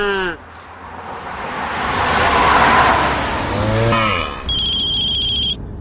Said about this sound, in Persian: کروز کنترله این دکمه رو زدم این الان دیگه سرعت ثابت میره نیازی نیست من گاز بدم